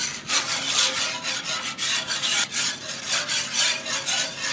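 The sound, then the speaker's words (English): A whisk scrapes browned meat bits from the bottom of a gravy pan as milk is stirred in, making steady, rhythmic raspy strokes that repeat many times alone without talk. “That sound you hear are the little bits of flavor that were in the bottom of the pan after I cooked the meat.”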